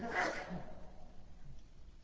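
A single sneeze: one short, breathy burst at the very start that fades quickly into near silence.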